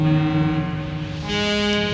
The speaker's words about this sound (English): so still, at the dark, you can hear a foghorn miles away